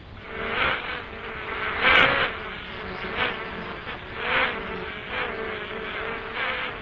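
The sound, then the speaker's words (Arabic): Mosquitoes buzz in a prison cell, a steady, continuous high whine that swells and dips in loudness over several seconds, with no voices. “كل واحد مننا احسن يستلم حيطه ويقتل الناموس اللي فيها.”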